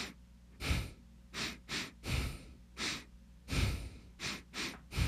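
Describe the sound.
A beat made only by breathing in and out through the nose: soft, hissy sniffs and exhales in short rhythmic bursts separated by brief pauses, with no voices.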